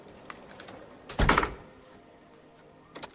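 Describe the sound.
A door is locked in a quiet home: a single solid clunk, then a pair of faint, quick clicks near the end, with near silence between.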